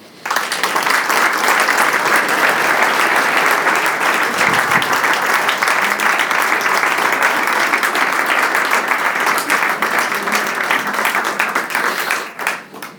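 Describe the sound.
An audience warmly applauds as a priest guest is welcomed. Dense, loud clapping runs steadily for about twelve seconds, then fades quickly at the end.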